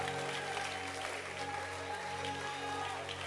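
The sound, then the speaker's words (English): Audience clapping hands during a worship service. A steady, dense patter of applause runs throughout, with faint sustained tones beneath. “Clap your hands for Jesus.”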